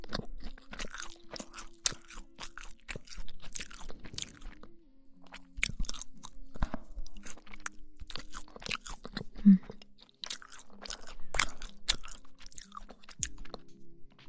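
Someone chews and eats raspberry cake with tart raspberries, producing many close, crisp crunching bites and wet chewing sounds in irregular bursts, with brief quiet pauses between mouthfuls.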